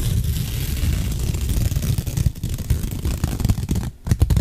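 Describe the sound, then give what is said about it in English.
Close ASMR ripping and tearing right at the microphone, a dense, crinkly, continuous rasp broken by a couple of brief pauses. “I'm gonna do ASMR of ripping things into the mic.”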